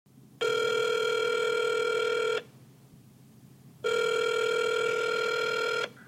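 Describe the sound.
A telephone rings as a call is placed: two long, loud buzzing rings, each about two seconds with a steady harmonic tone, separated by a short pause, with no voices.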